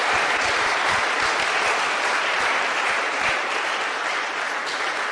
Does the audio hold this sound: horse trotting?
no